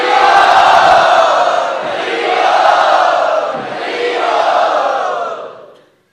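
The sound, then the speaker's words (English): Loud crowd cheering and shouting as an audience enthusiastically welcomes a speaker, swelling in a few waves of roaring voices before fading out at the end. “Let us welcome very enthusiastically and loudly Shukadev”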